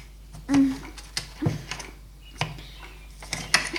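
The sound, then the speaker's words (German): Knife slicing vegetables and tomatoes for homemade pizza, with young cooks at work: several irregular, sharp taps and cuts against a board, spaced apart with quiet gaps between them. “Als nächstes müssen sie das Gemüse in Scheiben schneiden.”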